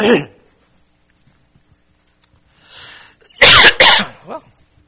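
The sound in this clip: Coughing in the middle of a spoken address: two loud, harsh coughs in quick succession, followed by a smaller throat sound, with quiet speech before them.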